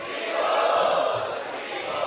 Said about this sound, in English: So let us welcome him by loudly chanting three times.